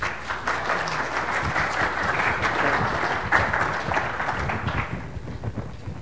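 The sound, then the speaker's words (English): Audience applause welcoming a speaker to a lecture: dense, steady clapping from many hands that holds for about five seconds and then thins slightly toward the end. “Please put your hands together and welcome Professor Johnson.”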